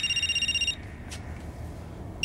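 A telephone rings with a fast, pulsed electronic trill that stops abruptly. A faint hush follows, and a brief burst of the ring returns at the very end.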